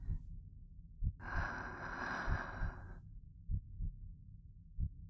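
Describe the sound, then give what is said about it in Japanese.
A person breathes in deeply, a broad, airy hiss lasting about two seconds. Soft low thumps pulse at irregular intervals throughout, before and after the inhale. “息を吸って。”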